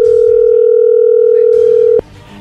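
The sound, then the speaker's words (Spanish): A steady telephone dial tone holds for about two seconds as a call connects, then cuts off abruptly, leaving faint background noise. “A ver, ya entró ahí la llamada, no hagan ruido, por favor.”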